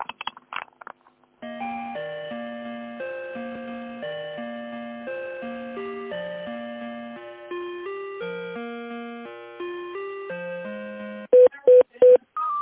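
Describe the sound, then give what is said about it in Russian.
Line tones on a call being transferred: a synthetic on-hold melody of steady electronic notes plays through a telephone line, then three short, loud beeps near the end, with no talk. “Минуточку, сейчас вас переключу на Диму”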